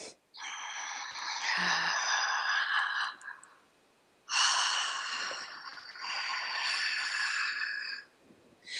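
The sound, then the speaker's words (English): A slow, deep breath drawn in audibly during a seated relaxation exercise: two long, airy breaths, each lasting a few seconds, separated by a short pause, with no talking. “So I'm making the noise. Normally you wouldn't need to make the noise. I'm making the noise so you understand. So you inhale.”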